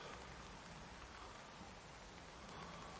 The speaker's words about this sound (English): It's hard filming because it's raining.